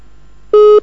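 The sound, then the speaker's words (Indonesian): A telephone busy tone after a dropped call during a live call-in: one short, steady mid-pitched beep sounding alone over a quiet line. “Mohon maaf, sambungan teleponnya tampaknya terputus.”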